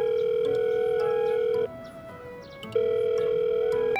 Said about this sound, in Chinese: 掏出手机按了一个号码